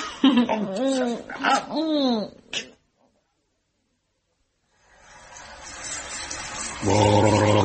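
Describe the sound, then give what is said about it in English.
A man gargles for oral hygiene after a stretch of speech and a silent pause: a hissing, bubbling gurgle that builds in loudness, then turns into a steady voiced, throaty burble. “There aren't many men who'd rush in here for a gargle after being given a friendship by a goddess. They're probably rushing here, but not for a gargle. It's a question of oral hygiene.”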